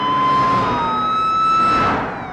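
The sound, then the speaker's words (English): Police vehicle sirens wail as the vehicles speed past, a loud, sustained, high tone that bends slightly in pitch and then drops away and fades at the end. “Several police vehicles speed by.”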